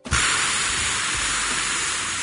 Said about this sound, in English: By the way, if you want to know the difference, AM sounds like this.